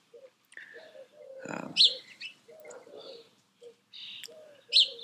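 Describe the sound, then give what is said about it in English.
Hummingbirds chirp near their nest in an oak tree: a few sharp, high-pitched chirps stand out against softer, lower calls and rustling. “And here's the hummingbird. Two hummingbirds. Oh, they're flying together.”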